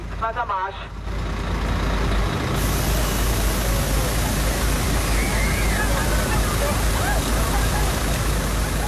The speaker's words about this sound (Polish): W Berlinie słychać odgłos policyjnej armatki wodnej, która rozpyla wodę na tłumy szukające ulgi w nieznośnym upale.